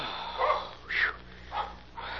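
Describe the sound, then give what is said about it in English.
Faint dog barks from a dog running toward a freight yard: four short, sharp yelps about half a second apart, quiet over a low steady hum. “It's only a dog running down toward the freight yard.”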